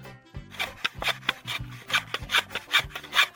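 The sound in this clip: Screws are driven into an electrical wall socket with a worn screwdriver, the stripped screws no longer holding. A quick series of scraping, rasping strokes sounds in an uneven rhythm, fairly faint and without voices.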